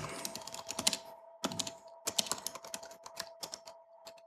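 Fingers typing on a computer keyboard in uneven bursts of quick clicking keystrokes separated by short pauses, over a faint steady hum.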